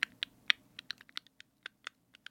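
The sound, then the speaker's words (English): Typing on a computer keyboard whose keys have jam stuck underneath them, recorded for ASMR: many sharp, irregular key clicks, crisp but soft, alone in quiet. “ASMR of typing keys”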